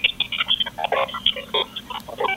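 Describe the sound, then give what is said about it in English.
Encrypted police radio feed: a garbled stream of digital warbles and clipped, robotic bursts over steady static hiss, with no intelligible speech. “On an encrypted feed, it would sound like this.”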